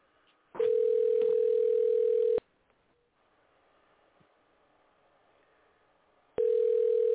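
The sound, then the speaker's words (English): A telephone call is being placed after hanging up and redialing. Two long, steady ringing tones sound on the line, separated by about four seconds of quiet line hiss. “We'll hang up, and what we'll do is we'll dial it again.”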